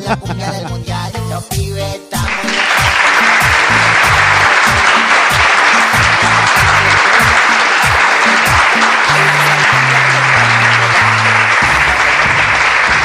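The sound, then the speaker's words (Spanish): Loud, dense applause from an audience bursts in after about two seconds of music and continues steadily to the end. Low musical tones keep sounding beneath the clapping. “Aplausos.”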